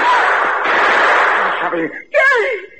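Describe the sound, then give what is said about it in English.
A gunshot in a western radio drama, a loud roaring blast that lasts well over a second and then dies away, followed by a man speaking. “Gary, you shot at me.”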